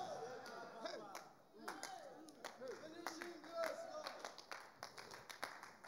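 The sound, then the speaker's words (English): Scattered clapping from a church audience during a sermon: irregular sharp claps that pick up and thin out over a murmur of voices. “I don't know whether you are clapping for Jesus or you are not”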